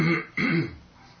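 A person clears their throat, as if something is caught in it: two short, rough, guttural bursts in quick succession, the second stronger, then trailing off, fairly faint and alone.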